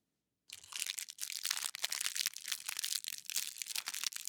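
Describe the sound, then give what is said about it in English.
Plastic fortune cookie bag being squished and crinkled, a dense run of many crisp crackles and rustles that starts abruptly and continues steadily, with no voices. “Okay, yeah, that was me just like squishing the bag for the ASMR vibes”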